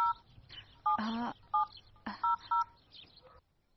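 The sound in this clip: Telephone keypad tones sound as a number is dialed: several short two-note beeps at uneven intervals, with soft clicks and one louder rustling burst between them. Fairly quiet overall, with no talk.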